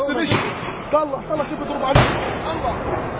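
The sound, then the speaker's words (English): Police firing at people outside Jerusalem's Old City: a sharp bang cuts through a dense, noisy din of crowd sound and agitated voices, with a softer thump earlier on. “Look how they are firing at us, he says.”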